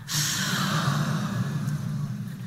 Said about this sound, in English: take a deep breath in. Raise your hands towards the ceiling. And I want you to let your breath out with an audible ha. I want you to push it out.